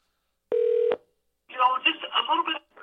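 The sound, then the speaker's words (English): A single steady telephone keypad tone sounds as a call is dialed into a radio show, a clear beep of about half a second, followed after a pause by someone speaking. “Hold on. We're dialing in.”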